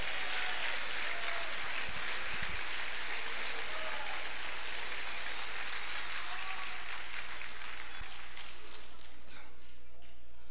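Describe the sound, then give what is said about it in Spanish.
A church audience applauds with dense, sustained clapping that holds steady throughout and thins out toward the end. “Denle un aplauso a Cristo, que Él se lo merece.”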